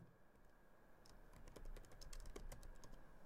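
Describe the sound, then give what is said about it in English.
Quiet, rapid clicking of fingers typing on a computer keyboard, starting after about a second and continuing in an uneven patter of many keystrokes to the end. “I can't type and talk as well. Let me do that.”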